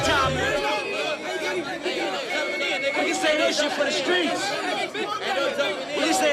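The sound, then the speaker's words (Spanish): Street crowd tumult mixed into a music track: many overlapping voices chatter in a continuous, busy murmur at steady loudness. “Mezclado con un sonido ambiente como de tumulto callejero, hasta el momento en el que para la música.”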